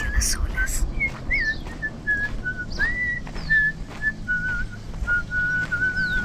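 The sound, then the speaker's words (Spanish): A person whistles a tune, a run of wavering, sliding notes that hold a bright, steady pitch, heard over a busy background. “El silbido.”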